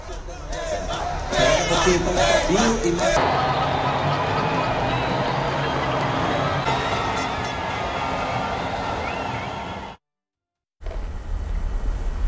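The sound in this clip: Brazil fans celebrating on a beach during a match, a loud, dense crowd roar of shouting and chanting voices that runs on before a brief silence and a return of noise.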